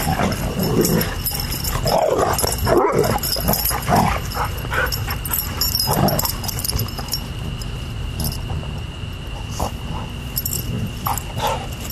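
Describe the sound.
Dogs bark in scattered bursts throughout, set against a dense, continuous background of noise.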